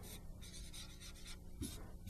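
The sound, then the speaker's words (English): Scratchy strokes of numbers being written by hand during a calculus lecture on related rates, several short rasping bursts in an uneven rhythm over a steady hiss. “So I have 3,800 is what I got by taking 5,000 minus 1,200. And that was in square miles per second. I'm just going to write it over here.”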